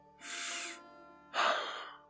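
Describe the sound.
A man inhales in two breathy bursts, the second louder and sharper than the first, with no talk around them.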